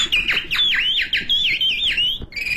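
A caged bird calls in a rapid, continuous series of bright descending whistled notes, each sweeping sharply downward, fairly loud and ending on a steadier held whistle.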